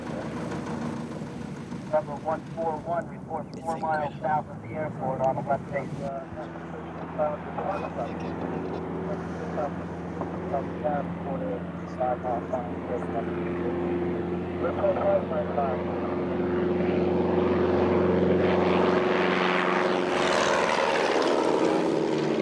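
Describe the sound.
A propeller airplane takes off from an airport pad, its steady engine drone building and growing louder toward the end, with radio-style voices talking over it early on.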